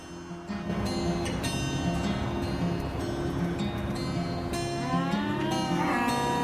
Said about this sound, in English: He pulls up alongside one of the huge dusty enclosures full of cows and gets out.